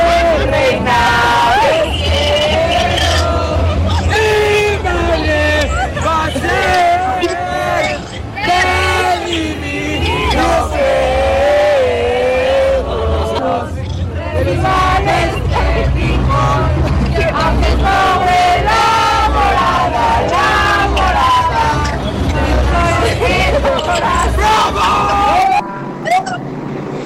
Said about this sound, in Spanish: en esta salida del FIFA Fan Fest, mientras pues se adelantaron algunos pues algunos meses, Enrique, ya se hicieron las letanías para pedir de plano posada. Escuchemos.